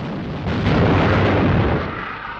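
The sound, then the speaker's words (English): A shell explodes in a direct hit on the bridge of the warship Amethyst under heavy fire, a deep, broad roaring blast that swells after a moment and then rumbles away over a couple of seconds. “The bridge has received a direct hit.”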